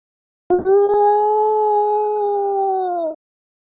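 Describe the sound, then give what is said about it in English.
A human voice imitates a Star Wars Wookiee: one loud, sustained, steady howl with a buzzing edge, lasting about two and a half seconds before stopping abruptly. “Is that a Wookiee noise? My pathetic attempt at it. I just can't make those frequency ranges.”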